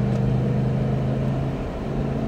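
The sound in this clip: A car driving and passing other cars, heard as a steady, continuous engine drone with a low hum that holds fairly even throughout, no voices.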